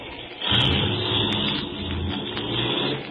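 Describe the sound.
A car engine starts up and pulls away: a steady, low rumbling drone with a slight surge near the start, then even running throughout.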